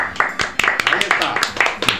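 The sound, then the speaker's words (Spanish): A radio applause sound effect: many sharp, crisp hand claps in a quick, fairly regular train, each with a short decay, while a voice talks over them. “Y hemos puesto aplausos.”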